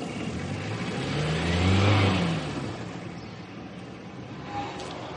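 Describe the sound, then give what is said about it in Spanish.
A police patrol car drives away from the doorway of a house. Its engine swells to a peak and then fades to a steady low rumble. “Después llega ante su casa y ve un coche patrulla de la policía que se aleja de su portal.”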